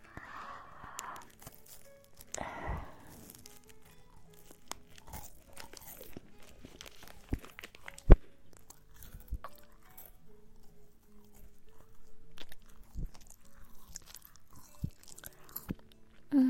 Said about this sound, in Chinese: 姐姐先吃第一口，然后第二口给你吃，好吧？